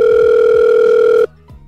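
A telephone dial tone as a call is placed: a loud, steady electronic hum with bright overtones that holds for over a second, then cuts off abruptly, leaving a few faint clicks.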